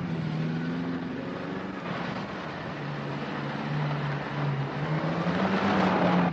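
A freshly tuned Ferrari car engine runs with a steady low hum and broad mechanical noise, swelling somewhat louder toward the end.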